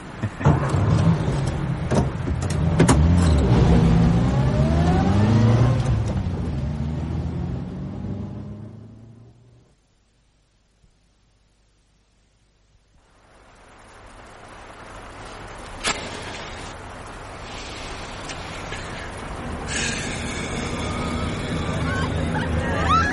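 A car engine revs hard and drives off for autocross-style driving along a common riding track. The loud roar climbs in pitch, then fades to near silence, and another engine rumble gradually builds again.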